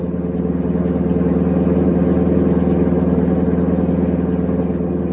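Steady bus engine noise while the bus is driving: a continuous low rumble with a constant drone and light clatter, holding an even, fairly loud level throughout with no talking.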